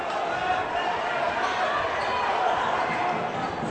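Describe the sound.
A basketball dribbled on the court during a game, the bounces blended into a steady wash of crowd noise while a commentator talks over it.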